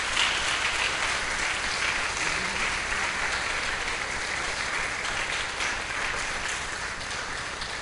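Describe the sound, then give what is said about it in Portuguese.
Sustained applause from a church audience clapping for Jesus during a service, a dense, even wash of hand claps that holds steady from start to finish. “Dá uma salva de palmas para Jesus. Ele merece.”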